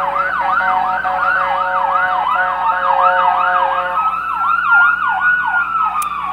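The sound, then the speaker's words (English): Emergency vehicle sirens passing, a loud rapid repeating wail over faint road noise, with a second siren pattern overlapping in the later seconds. “Lord, please help whoever the emergency vehicles are going to.”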